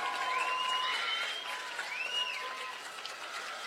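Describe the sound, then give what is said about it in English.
Baseball fans in a stadium clap and cheer together, a steady, fairly even roar of hands and voices that holds for the whole stretch and eases slightly toward the end. “Rear Order fans, make some noise. Clap those hands, ring those bells. Let them hear you.”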